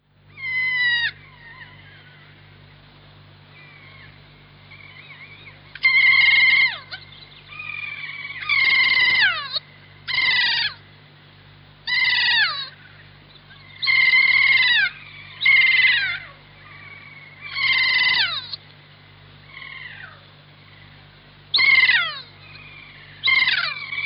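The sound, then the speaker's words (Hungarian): A kea, the New Zealand mountain parrot, gives a long series of loud, high, descending wailing calls. The cries sound close to cat meows and are separated by short silences, over a low, steady hum. “Az új-zélandi juhtenyésztők átka, mert csapatostul megtámadja és levágja a juhokat. Nestor papagája neve.”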